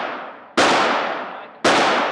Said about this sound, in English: the gun is now loaded. You have three shots.